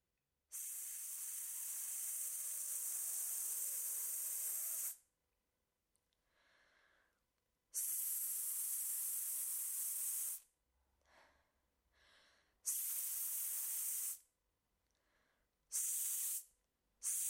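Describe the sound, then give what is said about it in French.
Hissing rush of air from a bicycle pump as the piston forces air through the hose, heard as several long, steady bursts of bright hiss separated by short quiet gaps, with no talk. “Observons une pompe à vélo. Le mouvement de son piston chasse l'air contenu dans le tuyau vers l'orifice.”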